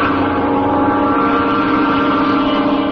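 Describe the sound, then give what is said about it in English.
Continuous droning hum of a spinning aircraft propeller, loud and steady throughout with a constant pitch and a rough, churning undertone, and no voices. “sometimes these nosy parties get so interested in these new devices, they stand too close to the propeller.”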